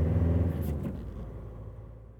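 A car driving, heard as a low engine rumble that is steady at first and then gradually fades out over the final second and a half.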